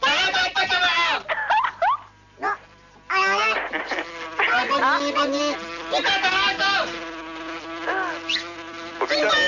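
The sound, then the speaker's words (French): Buzzing flies sound over a crackly, poor-quality CB radio channel: warbling, droning buzzes start and stop in bursts, with voices mixed in. “Les mouches arrivent”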